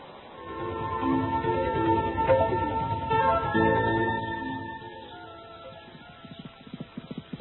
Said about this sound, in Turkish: Doğu dizgin gelen atlı da kim olur? Hele bir gelsin anlarız. Şunun at sürüşüne bak. Hayvanı çatlatacak.